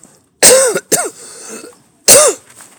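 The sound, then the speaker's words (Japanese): A person coughs three times: two loud, harsh coughs in quick succession, a short pause, then one more. “なんかもううかつに咳もできないですね、今ね。”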